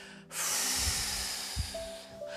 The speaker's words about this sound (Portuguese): Inspira essa gratidão para dentro de você, segura ela aí, no seu abdômen, no seu peito. E aí solta todo o ar,